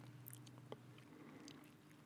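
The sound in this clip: Soft, faint chewing of a bite of brie cheese: quiet, moist mastication with one slightly sharper sound near the start, and no voices.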